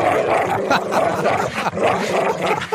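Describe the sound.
Dog barking used as a mock alarm: a loud, busy run of repeated barks that fills the whole stretch, with no clear gaps between them.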